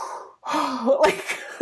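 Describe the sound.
A voice imitates a sharp, gasping intake of breath. It is a short, breathy vocal sound that ends with a brief final burst.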